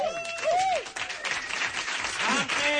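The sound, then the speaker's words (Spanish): Audience applause welcoming a guest on a program, with steady clapping throughout and shouted voices and cheers rising over it. “¡Un aplauso!”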